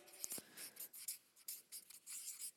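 Handwriting on a board during a lesson: many short scratchy strokes in quick, irregular bursts, faint and with no talk over them.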